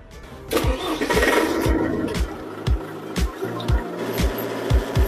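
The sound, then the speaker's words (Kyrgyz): A tractor engine with a reversible gearbox starts up: a steady run of low, evenly spaced thumps over a rough mechanical rumble, with the firing settling into a regular beat. “Бул трактор ревизивный өткөрүү коробкасы менен.”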